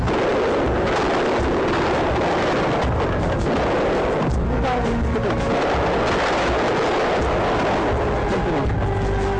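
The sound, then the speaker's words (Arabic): Soldiers fire on crowds of demonstrators packing a street, producing a dense, continuous barrage of loud cracks and booms that never lets up. “وعندما اكتظ الشارع بالجماهير المحتشدة بدأ إطلاق الرصاص.”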